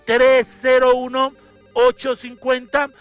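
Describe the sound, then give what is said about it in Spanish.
A telephone rings with an incoming call, heard as a few bursts of tonal ringing with voices mixed in among them. “Tenemos otra llamada a la persona que tenemos al otro lado de la línea.”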